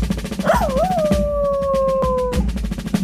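A dog howls once, a long clear tone that wobbles at first and then holds steady before breaking off. The howl plays over a constant rhythmic music bed.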